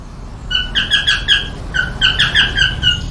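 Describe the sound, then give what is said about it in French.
Cockatiel parakeet calling: many short, bright chirps in two quick bursts, each call clear and fairly loud over a soft background hiss. “Regarde cette petite perruche. Ce sont des perruches calopsites.”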